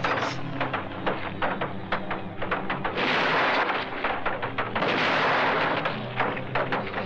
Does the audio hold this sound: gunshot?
yes

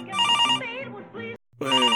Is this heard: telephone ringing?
yes

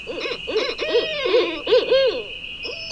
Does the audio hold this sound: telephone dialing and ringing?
no

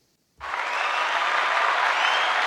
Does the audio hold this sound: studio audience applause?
yes

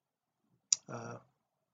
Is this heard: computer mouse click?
yes

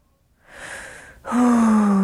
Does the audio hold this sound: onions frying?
no

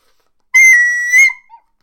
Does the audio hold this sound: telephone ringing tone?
no

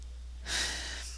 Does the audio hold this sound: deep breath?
yes

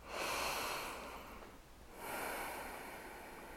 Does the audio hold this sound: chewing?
no

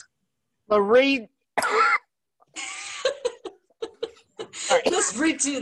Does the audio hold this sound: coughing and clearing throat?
yes

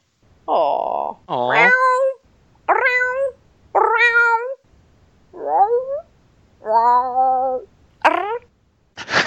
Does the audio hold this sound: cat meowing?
yes

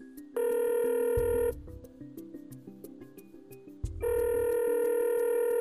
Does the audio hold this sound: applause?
no

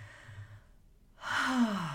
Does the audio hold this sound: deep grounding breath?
yes

